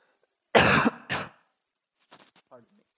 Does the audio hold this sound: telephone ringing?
no